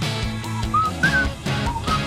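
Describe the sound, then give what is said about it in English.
Whistling carries the melody of a song: a few clear, high, pitched notes rise and fall in a short tune over a steady musical backing, moderately loud, with no voices. “And the song that proves whistling makes a song better.”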